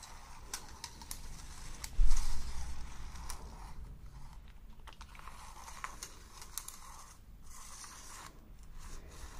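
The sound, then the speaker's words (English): A flexible tape measure is pulled out and let back in, giving a scattering of light ticks and a louder brief rasp near the start. The sound is soft overall and no voices are heard. “You can also see with this tape measure, it's a lot more flexible.”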